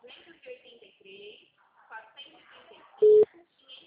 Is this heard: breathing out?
no

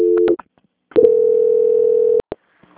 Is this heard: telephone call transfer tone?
yes

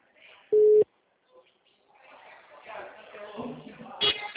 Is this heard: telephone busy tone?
yes

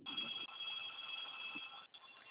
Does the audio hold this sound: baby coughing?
no

